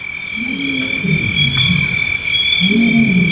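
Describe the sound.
A lion roaring in the morning: two low, drawn-out groaning calls that rise and fall in pitch, separated by a short pause, over a continuous high-pitched whine.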